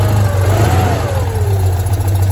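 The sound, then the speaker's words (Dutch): The small air-cooled engine of a cheap little car revs, its loud steady drone briefly climbing in pitch and then sinking back down. “luchtgekoeld motortje. Heerlijk, ja. Heerlijk. Hup, en hij valt stil. Typisch. Hier voor de deur staat er ook nog één. Ja, daar is hij terug. Oké. Okay. Even gas geven, meer gas geven.”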